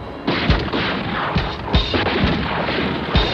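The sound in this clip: A few sharp gunshots ring out from a moving car during a chase, short cracking bangs spaced irregularly over a steady rumbling background.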